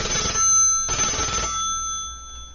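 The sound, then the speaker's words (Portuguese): A telephone rings on an outgoing call to a butcher shop: two loud bursts of bright, buzzing ringing separated by a short gap, then a fading tail with no voices. “Vamos ligar lá para o açougue e ver se está tudo certinho por lá.”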